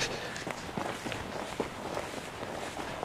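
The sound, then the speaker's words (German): Footsteps walking on soft, black, peaty bog ground: a steady series of muffled, dull treads with a light rustle between them, fairly quiet throughout. “Und ich merke schon, hier der Boden ist sehr moorig. Es ist schwarz, es ist weich. Es fühlt sich an, als würde man auf Torf laufen.”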